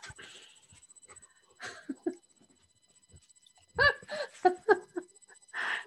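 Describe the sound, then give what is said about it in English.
A dog perched on a person's shoulder whimpers and pants in irregular bursts of high whines and quick breaths, restless and wanting to go outside, with quiet stretches in between. “I have a dog on my shoulder. For those not watching, it's like, we need a second microphone here. The dog has joined.”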